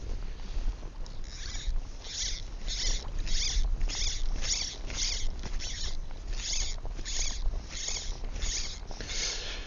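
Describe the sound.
Fishing line is stripped off a reel in a rapid, regular series of faint, raspy, zipper-like pulls, repeated many times without pause.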